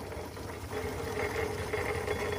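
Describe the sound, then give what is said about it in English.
Chugging from a scaled-down model Foden steam wagon, a coal-fired steam engine running at a museum on an old sewage pumping station site, gives a steady rhythmic low chuff with a continuous mechanical rumble and no voices. “Dave and I are aboard a Foden steam wagon chugging around the Museum of Technology here in Cambridge.”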